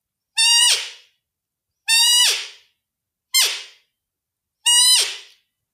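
A person imitates a roe deer doe's mating call, the 'Pierlaut' used to lure bucks: four separate bright, reedy, harmonic calls, each held briefly and then dropping off in a quick downward glide, with short silences between.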